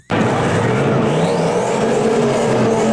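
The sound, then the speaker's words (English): Engine of an old Fox Body Ford Mustang with a strong motor, kicking in abruptly as a loud, sustained roar that holds steady, with a whining tone climbing over its course. “Oh, it's an old-style Mustang. That's an old Fox Body Mustang. Sounds like he's got a pretty good motor in it.”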